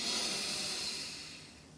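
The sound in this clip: A slow exhale during a guided breathing exercise: a soft, airy hiss of breath that fades gradually over about two seconds.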